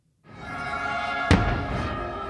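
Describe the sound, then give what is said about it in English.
A single sharp firework bang bursts out at a fireworks display over Mount Rushmore, standing out above a steady, loud wash of background noise with sustained tones running through it. “Fireworks explode over Mount Rushmore and attendees sit in awe, capturing video of the spectacle”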